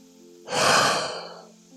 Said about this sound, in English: taking a deep breath